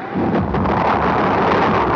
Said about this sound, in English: Lift off! It's going! It's good! A beautiful shot! A beautiful shot!